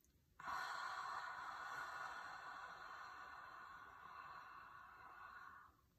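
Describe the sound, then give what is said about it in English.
A deep breath during a breathwork exercise: one long, steady, airy rush of breath lasting about five seconds, gently fading at the end, with no talking. “Inhale. Pause at the top, exhale.”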